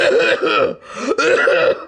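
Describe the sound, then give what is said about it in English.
A voice imitates a hacking cough, like one suffered through an eight-hour plane flight with a respiratory illness: loud, rasping throaty bursts in quick succession with brief gaps between them. “I was a dude on the plane for 8 hours with a hacking cough.”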